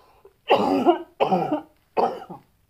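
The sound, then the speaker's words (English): Three harsh, loud coughs from a person smoking a blunt, evenly spaced bursts with short silences between them and no talk. “Cough break, one moment. Wow, excuse me.”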